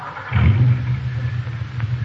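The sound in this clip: A car engine hums while driving, a steady low drone that swells slightly early on and then holds even.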